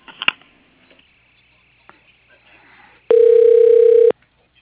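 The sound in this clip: A steady electronic telephone tone, loud and about one second long, sounds as a call is transferred to voicemail, after a few faint clicks and soft rustling.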